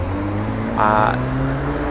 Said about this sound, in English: Sorry for all the car noise in the background. It is rush hour, and I'm sitting on one of the busiest junctions